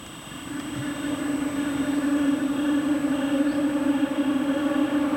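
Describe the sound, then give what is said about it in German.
A train rolls along the rails between Bayerisch Gmain and Berchtesgaden, a steady whirring rumble with a droning tonal hum that swells over the first seconds and then holds loud and even. “Schon lange, bevor man den Zug sieht, baut sich ein schwirrendes Geräusch auf, das immer lauter wird, bis der Zug vorbeifährt.”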